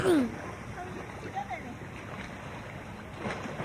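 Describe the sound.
A dog jumps into a swimming pool with one loud splash at the start, followed by softer sloshing of water while a person talks.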